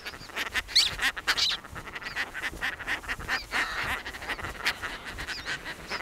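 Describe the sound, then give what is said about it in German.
Harsh, raspy calls of Europe's largest terns, with a wingspan of nearly 1.5 metres, at an island nesting colony of about 60 pairs with newly hatched chicks. Many overlapping squawks continue throughout at a moderate level. “Die größten Seeschwalben Europas haben eine Flügelspannweite von fast 1,5 Metern.”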